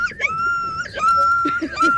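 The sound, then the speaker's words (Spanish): A voice imitates a dog yelping and whimpering after being hit: a few high, thin, drawn-out whining cries, followed by short clipped yips near the end. “No, un perro. Pero es un perro que le pegaron.”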